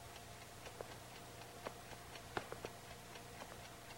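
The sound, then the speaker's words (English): Soft, steady ticking comes from an alarm clock sitting on top of a kitchen stove; many faint, even ticks sound alone over a quiet background hiss. “glances at an alarm clock sitting atop the stove.”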